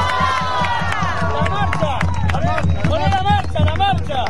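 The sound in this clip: A crowd at a union gathering in the La Plata region cheers and applauds, with many voices shouting and chanting together over a dense, continuous wash of noise.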